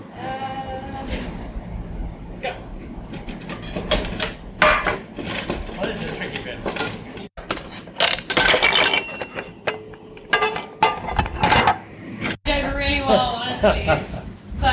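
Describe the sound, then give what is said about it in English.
A camping primus stove is handled and tested during a South Pole expedition, with scattered metallic clinks, knocks and rattles under ongoing talk. “Oh, no, it's time for the primer stove test.”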